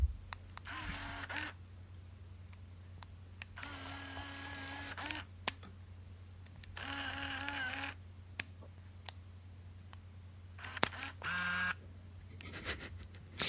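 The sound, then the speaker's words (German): A Canon IXUS compact film camera whirs as its lens extends and retracts, fires a flash shot and advances the film. Several faint, short motor whirs are separated by quiet gaps and sharp clicks. “Es ist eine Canon IXUS 2. Einschalten der Kamera, das Objektiv fährt etwas heraus. Dann das maximale Herausfahren des Objektivs, dann das Zurückfahren des Objektivs, Auslösen mit Blitz und Transport des Films, Ausschalten der Kamera, Objektiv fährt herein.”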